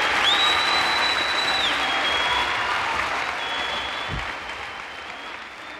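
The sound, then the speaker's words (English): A live audience applauds the start of a performer's first news show: steady, dense clapping fills the whole stretch and eases slightly toward the end. “And now, let's give a big hand for the great reveal.”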